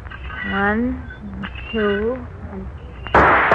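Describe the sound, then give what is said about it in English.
A pistol shot fired at a swinging tin can cracks out as a single sudden, loud burst at the very end, after people talking. “Okay, watch me with a pistol now. Okay. Start the can swinging. Yeah. Check. Here I go.”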